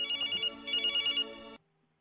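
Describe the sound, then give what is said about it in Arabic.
Telephone ringing for an incoming call: a bright, high electronic ringtone sounds in two bursts with a short gap between, then a lower tail before it cuts off abruptly into silence. “مكالمات هاتفية نستقبلوها. ألو ألو، مرحبا.”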